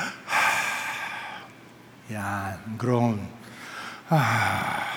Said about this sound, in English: You know what is groan in Tagalog? Oh, ito, groan.